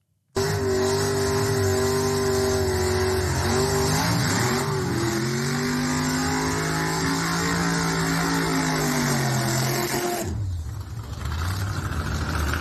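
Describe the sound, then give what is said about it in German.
A quarter-mile dragster doing a burnout gives a loud, sustained engine roar with a harsh, raspy edge. The pitch wavers as it revs, and there is a brief dip near the end before the roar resumes. “Das war ein kleiner Burnout von einem Dragster, von einem Viertelmeile-Rennfahrzeug, wie auch immer.”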